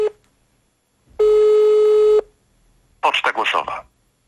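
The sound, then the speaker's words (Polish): Telephone tones while someone tries to ring a person: a brief tone cut off at the start, then one steady electronic beep of about a second, followed after a pause by a short burst of speech. “Ja sobie robię tak. Próbuję znów zatelefonować do Patrycji.”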